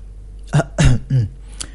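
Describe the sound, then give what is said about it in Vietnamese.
A voice imitating a short, dry cough or throat clearing, made of three brief, loud voiced bursts in quick succession. “ho khan một tiếng, sau đó mới nói”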